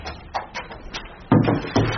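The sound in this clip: A large, slow drawer opening in a museum storage room: a few soft knocks, then two louder, broad scraping rumbles near the end.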